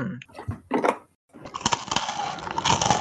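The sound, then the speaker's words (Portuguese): Crunchy rosquinha ring biscuit is bitten and chewed: dense, crackly crunching that runs steadily after a brief pause, preceded by a few soft vocal sounds. “Sintam a crocância da minha rosquinha.”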